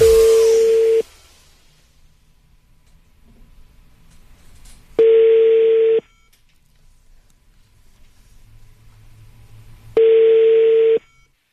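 A telephone rings on the line after a number is dialed: three steady one-second ring tones separated by long, nearly silent gaps with faint hum between them.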